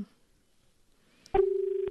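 A telephone line connects for an incoming call on a farming phone-in radio program from Mysuru. After near-silence and a faint click, a steady, pulsing telephone tone starts and holds to the end.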